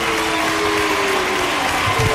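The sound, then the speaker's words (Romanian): A studio audience gives a round of applause. The clapping is dense and sustained, a loud, even patter of many hands that carries through the whole clip without pause. “aplauze încă o dată, bravo!”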